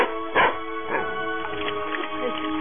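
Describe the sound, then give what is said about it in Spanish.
A dog barks a few times in short, yappy bursts over a steady background of dramatized scene noise, the barks sharp and mid-pitched, spaced irregularly. “¡Fuera! No te has ido, maldito perro. ¡Te voy a sacar a escobazos!”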